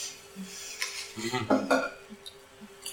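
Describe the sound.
Dice clatter across a table during a tabletop role-playing game session, a short burst of sharp clicks and rattles of moderate loudness over a faint background hum.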